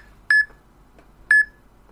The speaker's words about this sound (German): So, jetzt wird das Piepen schon mal ein bisschen flotter. Noch schneller.